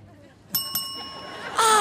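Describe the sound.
A game show contestant rings in with a bell: two quick, bright dings ring out in close succession, then a louder burst of noise follows.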